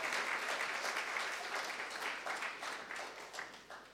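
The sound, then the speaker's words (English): Warm applause welcomes a speaker to the front of a church service. Steady, fairly quiet clapping from a crowd runs throughout and thins slightly toward the end. “Och I det du sätter dig ned så ska vi bara ge Joyce Wilkinson en varm och god applaus.”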